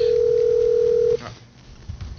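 A telephone tone marks an incoming call to a radio show: one steady, loud, mid-pitched tone that holds for about a second and then cuts off abruptly, leaving quieter low background noise.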